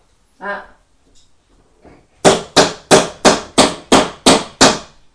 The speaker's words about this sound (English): I'll use my hammer. I'll use my hammer.